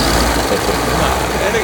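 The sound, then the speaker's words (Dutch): A paramotor's propeller engine runs steadily, a continuous rough drone with a strong low hum that stays at an even, loud level throughout without pauses. “Je pakt de paramotor, die doe je op je rug. En dan start je hem. En je houdt gas. En door de propeller krijg je een soort stuwkracht”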